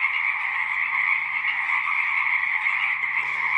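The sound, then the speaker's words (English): Pacific chorus frogs call in a dense, unbroken chorus in a marsh at night on Saturna Island, British Columbia, a steady, loud overlapping croaking that holds level throughout, with no voices. “The revelry of the Pacific chorus frogs is scarcely affected by the engine vibrations from passing late-night airplane flights.”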